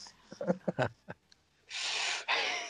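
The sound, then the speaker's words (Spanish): Someone smokes a cigarette, drawing a breathy inhale and then releasing a longer, airy exhale. A few short vocal sounds come before. “Ah, sí, están fumando un cigarro, ya lo vi. ¿Sí fue un cigarro? Sí, sí fue un cigarro.”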